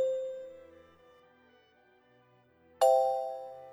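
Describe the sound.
A chime's soft tone fades away, then a bright second strike rings out loudly and decays slowly.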